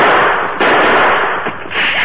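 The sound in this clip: Gunshots ring out in a Lone Ranger Western radio drama, loud sharp cracks over a dense, noisy roar that stays heavy throughout.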